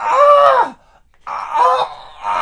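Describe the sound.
A voice imitates a groan from someone in a toilet stall: two drawn-out, strained moaning tones, fairly loud, separated by a short pause. The first tone bends downward at its end.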